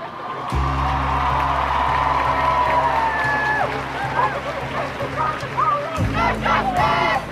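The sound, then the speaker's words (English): A crowd of over 2,000 people fills Auckland's Aotea Square at a Black Lives Matter rally, with scattered shouts and cries rising over a steady low drone. The hum drops out briefly near the end before returning. “That's the sound of over 2,000 people gathered in Auckland's Altea Square on June 14th this year.”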